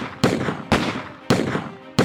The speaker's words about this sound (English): Peacock and Updegraff, behind the corner of the jail, hurled a fusillade of blazing bullets in Bat's direction.